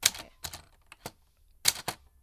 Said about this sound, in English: why don't you just use a typewriter?